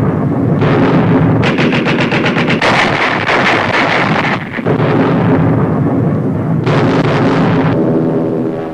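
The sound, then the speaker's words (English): Pom-pom anti-aircraft guns fire from Arctic convoy ships off northern Norway, unleashing rapid rattling bursts of heavy, thudding shots. Several loud bursts follow one another over a continuous booming rumble. “Pom-poms, anti-aircraft guns blaze into action.”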